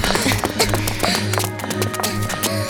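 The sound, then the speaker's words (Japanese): Running footsteps race at full speed toward a dining hall as a rapid, steady patter of thuds over a sustained tonal backdrop. “奥に食堂があります。そこまで全力で走ってください。”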